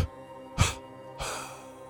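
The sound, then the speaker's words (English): Breaths during a breathing exercise: a sharp, quick inhale through the mouth, then a longer, steady rush of breath, both airy and fairly soft with no talking. “Three death breaths in. One long breath. Hold. Three death breaths.”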